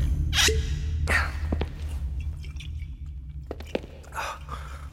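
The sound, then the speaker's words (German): Someone taking a sip of whisky: a few wet slurps and squishy mouth sounds with breathy bursts, heard over a low steady hum. “Nimm einen Schluck Whisky. Das beruhigt die Nerven. Gib her.”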